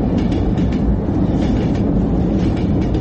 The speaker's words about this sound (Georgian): ამ ოთახში მატარებელი მიდის. კედელზე გაკრული ლიანდაგი უსასრულოა.